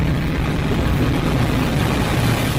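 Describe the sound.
A rocket or aircraft takeoff sound effect roars as a steady, dense rumble, heavy in the low end and unbroken from start to finish at a constant loudness.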